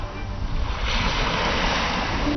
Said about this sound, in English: China Insight invites you onto this roaring construction site at sea to see just how this passage, this bridge, this connection is being built step by step.